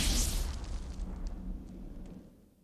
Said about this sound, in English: He's blown to pieces as the missile in his breastplate explodes.